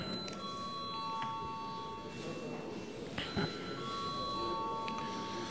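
A bell rung in a parliamentary session to call members to a vote: faint, sustained ringing tones that recur over a low background murmur.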